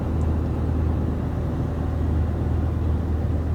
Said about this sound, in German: Jetzt fahre ich hier einmal rum.